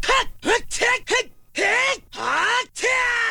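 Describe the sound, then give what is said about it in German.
Link, the hero of The Legend of Zelda video game, grunts and yells wordlessly: four short, clipped efforts in quick succession, then three longer, strained cries, each bending up and down in pitch. “Eine Sache, an die ich mich aber immer erinnere, wenn ich an dieses Spiel denke, dann sind es die Geräusche, die der Held Link macht.”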